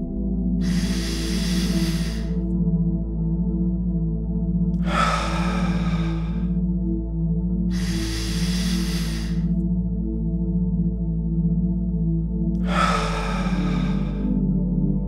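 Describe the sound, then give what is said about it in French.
Deep, slow breaths are taken while lying down to relax: four long, airy rushes of breath spaced evenly apart over a sustained low drone of background music. “Vous pouvez maintenant vous allonger et vous détendre. Commencez par prendre quelques respirations profondes.”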